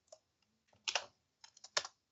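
Faint clicks come from a computer keyboard as a name is typed into a list, in short irregular bursts of quick keystrokes with brief pauses between them.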